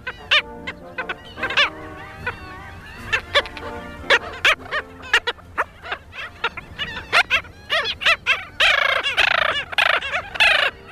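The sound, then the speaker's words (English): Black skimmer calls: many short, nasal, barking yaps in irregular bursts that grow denser and louder toward the end, with overlapping calls near the close. “The black skimmer breeds along the East Coast from Massachusetts and New York southward to southern Mexico, and sounds like this.”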